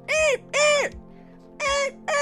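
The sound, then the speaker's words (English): A blue jay calls from a tree, giving loud, harsh, drawn-out calls with a downward-arching tone: three full calls and a fourth cut off at the end, over a faint steady low hum. “Shut up! Nothing is happening! There is nothing happening right now. You are sitting in a tree just yelling at the world. Shut up, Blue Jay.”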